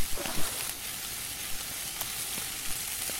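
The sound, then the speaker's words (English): Ten pieces of bear meat sizzle together in a skillet over a fire in a video game, giving a steady, bright frying hiss with occasional small pops and crackles. “What this is doing is cooking the 10 bear meat all at once in my skillet. And you just keep hitting space over and over again until you hear the sound of the bear meat being finished.”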